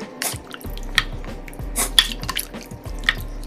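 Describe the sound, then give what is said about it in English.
Food being stirred in a crock pot gives off several soft, wet squelches and sharp little drips at irregular intervals, heard over a faint low hum. “I'm gonna go ahead and give it like a stir.”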